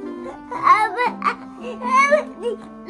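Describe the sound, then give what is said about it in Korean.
A young child cries in whiny, wavering wails that rise and fall in pitch, coming in a few loud bursts with short breaths between. “왜 그래? 왜 울어?”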